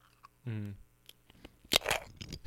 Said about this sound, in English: ASMR, food chip.